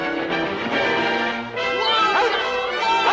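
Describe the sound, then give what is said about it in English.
A yellow dog barks and yips as it chases a spooked mule across a plowed farm field, its excited cries sounding within a dense, continuous mix of other sound. “The dog follows, spooking the mule.”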